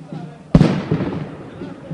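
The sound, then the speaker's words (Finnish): Fireworks explode at a hockey celebration, with one sudden loud bang followed by a crackling rumble and a few fainter pops while people talk nearby. “Siellä tulee räjähdyksiä.”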